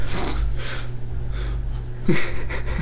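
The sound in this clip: A human voice imitates a caveman's heavy breathing with a few loud, wheezy, snorting breaths separated by short pauses.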